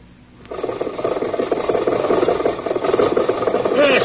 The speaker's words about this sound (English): Lum, Abner, and Cedric driving along the highway, heading for Pine Ridge. Listen.